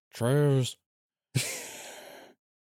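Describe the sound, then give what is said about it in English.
A voice imitates wrestler Stone Cold's heavy breathing: first a short, voiced, groaning breath, then after a pause a longer, rough, breathy exhale, with no other sound around them. “He also, like, breathes a lot when he's talking, too, so he's like,”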